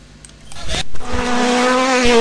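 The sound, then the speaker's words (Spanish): Rally car engines roar in a loud, sustained drone with a steady harmonic whine after a brief noisy start, holding at an even level to the end. “Muy pronto rugen los motores en los caminos del departamento. Rally de 33.”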